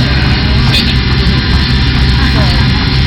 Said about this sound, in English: It's for the parabola plane, the one that goes up and down and simulates zero gravity.